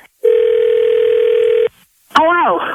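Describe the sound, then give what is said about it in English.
A telephone dial tone sounds for about one and a half seconds on a call being placed back, then cuts off. After a short gap, a loud warbling, wavering ring tone follows. “I'm going to dial her back real quick and just say you missed the call or something.”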